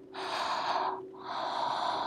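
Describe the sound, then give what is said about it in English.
Breath exhaled onto skin: two long, soft, airy breaths, the first fading before a brief pause and the second running steadily to the end, with a faint steady hum underneath. “And just breathe. Just breathe on it. Do you feel my warm breath”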